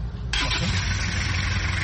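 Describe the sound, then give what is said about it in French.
A car engine is restarted at a market: a short burst of cranking catches almost at once into a steady, loud idle that holds to the end. “redémarre sa voiture, déçu de ne pas avoir trouvé ce qu'il voulait sur le marché.”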